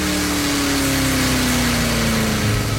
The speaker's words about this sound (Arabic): سمير، في سيارة ميلت على الغرابة، شايفها؟